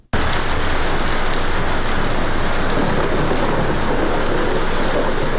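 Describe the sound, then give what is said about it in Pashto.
Heavy rain falling in Sydney, a loud, steady, dense hiss of downpour that runs without a break from start to finish, with no voices heard. “د 500 میلیونو استوګنو په شهر کې دا باران لا هم روان دی”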